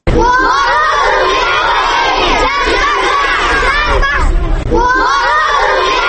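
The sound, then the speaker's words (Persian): Students of Istiqlal High School in Kabul chanting for peace: a loud chorus of young voices shouting in unison, sustained with one brief dip midway before surging back. “این صدای شاگردان لیسه استقلالند که با یک صدا و اراده مشترک خواهان برقراری صلح و ثبات در کشورشان شده اند.”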